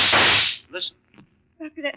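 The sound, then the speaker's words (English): A gunshot cracks loud and sharp, then quickly decays, followed by a few brief spoken words. “That must be Chris firing that gun.”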